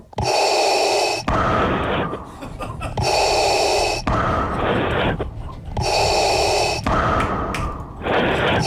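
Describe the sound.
A voice imitates heavy mechanical mask breathing, with about three loud, rasping breath cycles in a slow, steady rhythm. Each cycle has a hissy in-and-out pull.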